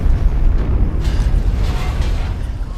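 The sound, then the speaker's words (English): An explosion on the other side of a camp comes through as a loud, deep, continuous rumble with rough, churning texture that holds steady, without clear separate blasts. “He turns toward the explosion on the other side of the camp.”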